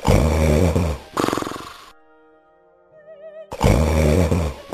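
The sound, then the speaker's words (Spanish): Loud, rasping snores of an ogre, said to shake the whole house: two long, rough, rattling snoring bursts, with soft tonal music in the quiet gap between them. “volvió a su habitación y enseguida se oyeron unos ronquidos que temblaba toda la casa.”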